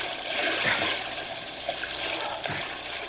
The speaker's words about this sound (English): Okay, Bobo. Let's swim to the opposite side.